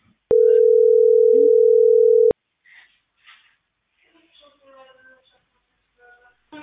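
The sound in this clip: A telephone call is cut off, leaving a single steady, loud electronic tone that lasts about two seconds and stops abruptly. A person then begins talking quietly.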